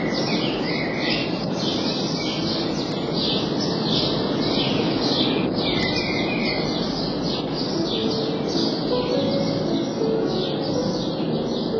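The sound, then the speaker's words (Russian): Birds sing in a garden, a dense, continuous chorus of high chirps and trills layered over a steady, loud background wash. “И когда писал музыку к Дон Жуану, слышал птицы, те самые птицы, которые сейчас поют.”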